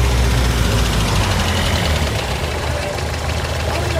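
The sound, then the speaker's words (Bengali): A car engine runs as the car pulls into a market parking lot, giving a loud, even, low rumbling drone that continues throughout. “গাড়িটা বাজারের parking লটে চলে এলো”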